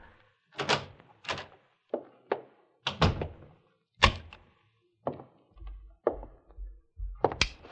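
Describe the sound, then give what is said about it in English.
A key turning in a door lock makes a series of many separate clunks, clicks and rattles, spaced irregularly with short silences between. “And then I heard the key in the lock.”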